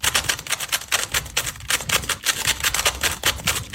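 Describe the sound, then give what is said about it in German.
A fully scrambled Rubik's cube is turned and solved in about four seconds, giving a rapid, dense stream of sharp plastic clicks and clacks that keeps up at an even, busy pace throughout. “Zauberwürfel in nur 4,27 Sekunden gelöst. Damit wir uns das jetzt alle mal vorstellen können. Also der ist komplett verdreht. Ja. Und das hier sind 4,27 Sekunden. Hört genau hin.”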